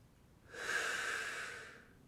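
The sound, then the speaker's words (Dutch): A slow, deep breath drawn in through the nose during a guided breathing exercise, a soft airy hiss that swells and fades over about a second, faint and alone. “In door de neus en uit door de mond.”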